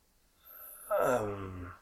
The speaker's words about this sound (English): He seems to groan.